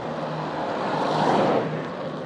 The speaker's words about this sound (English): I deliberately put the pauses in there to hear the wind noise on its own.